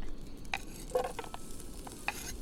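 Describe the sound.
Garlic and zucchini frying in oil on a powerful gas stove give a steady, soft sizzling hiss, broken by a few brief crackles and utensil clicks.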